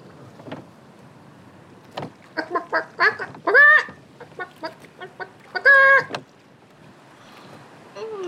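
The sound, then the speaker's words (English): A hen clucking after laying an egg: a run of short, sharp clucks that builds into two loud, drawn-out squawking calls, then fades back to quiet. “"Oh, what's that? What's that noise?" "It's me. I just laid my morning egg. That's all." "Goodness me, a yellow hen.”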